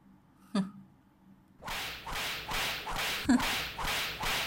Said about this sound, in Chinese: 这鞭子就算是你的早饭吧，滋味不错吧？